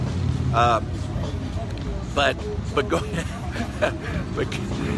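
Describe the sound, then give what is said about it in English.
Harley-Davidson motorcycles passing by in the Great Smoky Mountains give a steady, low engine rumble beneath a man who talks throughout. “Boy, these Harley Davidsons are going by. Boy, they're noisy. I'm sorry about that.”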